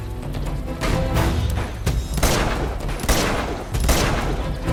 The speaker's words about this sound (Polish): Gdzie on do mnie strzela?